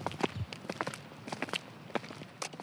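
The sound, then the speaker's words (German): Footsteps of people setting off on a walk, a faint, steady run of light steps with an even rhythm, with no talk. “Um das Gespräch zu verdauen, machen wir noch einen Spaziergang.”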